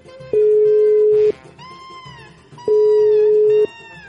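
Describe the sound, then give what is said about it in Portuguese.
Ringback tones of an outgoing phone call, two long, steady, mid-pitched electronic tones about a second each, separated by a pause, with other wavering tonal sounds in between. “Então vamos ligar pra ele e ver o que ele tá fazendo, velho.”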